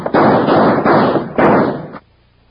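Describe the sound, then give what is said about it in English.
Gunshots from several guns in an old-West shootout at night: a few heavy, booming reports crack out one after another, each trailing a long rumbling tail, then cut off abruptly into near silence. “In the split second it took Mel Sutter to recognize Wild Bill Hickok and Jingles in the half-dark, Gadsden's guns began to bark.”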